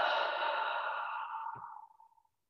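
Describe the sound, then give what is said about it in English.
A long, soft exhale through the mouth during a guided breathing exercise: a breathy, airy rush that holds steady, then tapers off into silence over about two seconds. “Exhale through the mouth.”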